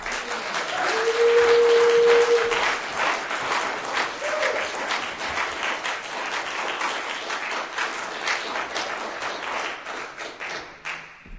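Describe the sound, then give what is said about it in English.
Audience applause after a reading: dense crowd clapping that is loudest near the start, then holds at a steady level for about eleven seconds before thinning out at the end. “Give him a hand. Keep it going.”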